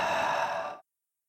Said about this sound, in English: So just take a deep breath in through your nose. And exhale fully and completely.